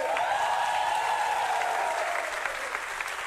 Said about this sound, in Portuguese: Muito obrigado, palmas pra vocês, aê!